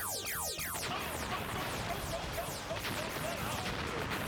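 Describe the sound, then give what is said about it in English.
Rapid laser-like zaps from a charger blaster in turbo auto mode open with several quick falling-pitch sweeps, then blur into a dense, continuous noisy barrage with more chirping shots running through it. “Wow, those blasts look puny.”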